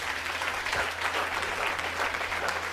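Applause from a crowd at a church service, a dense, steady clapping wash that holds at an even level for the whole clip with no voices rising above it.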